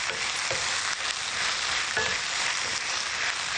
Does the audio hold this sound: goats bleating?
no